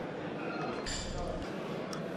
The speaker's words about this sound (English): notwithstanding an inevitable background din of clinking coffee cups and conversation